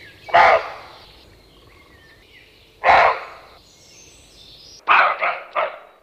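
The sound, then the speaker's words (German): A roe buck barks very close to a tent with harsh, hoarse, loud barks. A single bark is followed after a pause by a second, and then a quick run of three. “Das ist ein Rehbock,”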